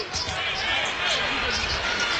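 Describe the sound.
A basketball is dribbled on the court in a high school game involving Warren Central, several dull thuds sounding under constant crowd noise and voices.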